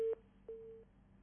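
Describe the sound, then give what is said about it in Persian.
A telephone busy signal on a call that fails to connect: a faint, steady, mid-pitched tone sounds in two bursts, a brief one at the start and a longer one after a short gap. “خب تلفن برقرار نیست.”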